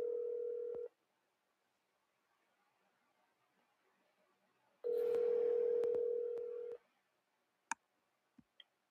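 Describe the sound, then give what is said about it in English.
Telephone call tones as someone places a call: a steady low tone sounds briefly and stops. After a silent pause it returns for about two seconds, followed by a few faint, sharp clicks, all fairly quiet. “So I think this is the part where he was actually trying to call me.”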